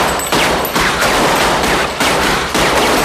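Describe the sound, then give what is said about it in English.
A machine gun fires at the ceiling of a showroom in dense, loud, continuous bursts, broken only by a few brief gaps. “Unable to control the machine gun, Larry fires at the ceiling.”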